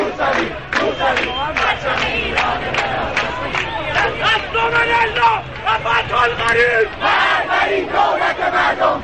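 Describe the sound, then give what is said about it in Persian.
A large crowd chants slogans near Valiasr Square in Tehran, loud rhythmic shouted phrases repeating over a continuous babble of many voices. “صدای شعارهای مردمی که دورتر از میدان ولیعصر ایستادند به گوش می رسد.”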